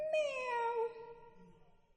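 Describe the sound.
A human voice imitates a cat's meow: one drawn-out, tonal meow that sinks slightly in pitch and fades away, heard alone.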